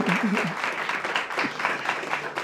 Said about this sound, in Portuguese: para compensar o aplauso da ministra, vai solicitar um aplauso a Vossa Excelência.